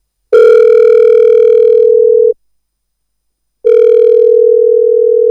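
A telephone ringing tone on the line: two long, steady, loud tones of about two seconds each, separated by a pause of over a second, with nothing else audible.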